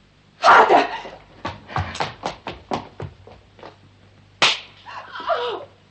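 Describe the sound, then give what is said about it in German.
A slap to the face: a crisp, sharp smack stands out among a series of short knocks and rustling movements, with one slap landing loudly and alone. “Von hier aus sah es aus wie eine Ohrfeige.”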